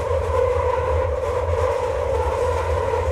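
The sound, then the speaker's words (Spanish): Train noise with a steady, continuous rumble and a droning hum, loud and unbroken throughout, with no voices. “Este ruido de nuestro tren nos indica que entramos en Under Party”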